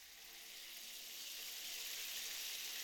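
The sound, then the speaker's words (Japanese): Running water rinsing hair: a soft, steady hiss of flowing water that grows slightly louder over a few seconds, with no voices. “はい、流すよ。”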